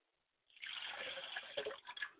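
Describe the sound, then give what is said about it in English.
Water is poured into a glass as a libation in an ancestral ritual: a steady, hissing splash begins after a short silence and runs on with slight gurgling fluctuations. “I pour a glass of water for my mother's spirit and I say, Mother, quench your thirst.”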